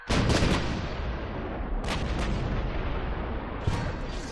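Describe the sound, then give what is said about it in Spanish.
Heavy cannon fire from galleasses in a naval battle. A few deep booming blasts punctuate a continuous roaring rumble, with sharp bursts near the start, in the middle and toward the end. “Las galeazas abren fuego.”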